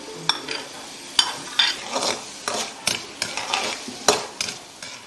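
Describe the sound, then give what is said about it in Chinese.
Diced vegetables, blanched beforehand, are stir-fried in hot oil, with many quick scraping strokes of a utensil against the pan over a constant sizzle, in an uneven, brisk rhythm. “将切好的丁焯水，捞出，放入油锅中爆炒。”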